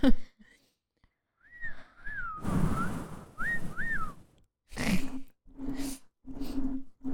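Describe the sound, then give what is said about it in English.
A person whistles a few short, faint sliding notes, broken up by soft breathy bursts and puffs of air between them. “I can't whistle in your house. Never mind. Like that?”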